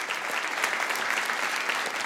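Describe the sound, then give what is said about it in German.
An audience applauds at a live comedy show. The dense clapping is steady and even, holding at one level throughout with no voices over it. “kein schlechter Applaus. Der Donny ist ja unser Applausometer.”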